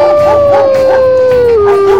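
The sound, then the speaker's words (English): A large dog howls in one long, sustained tone that slowly sinks in pitch, loud and steady throughout with no talk. “Have you ever seen a dog this big?”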